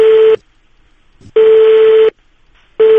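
A telephone call is placed, and a steady single-pitched tone sounds in loud, long beeps separated by silent gaps, a few times over.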